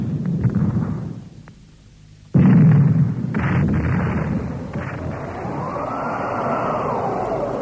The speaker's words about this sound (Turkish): Dinleyiniz. Toplarla dikine ateş yapılır.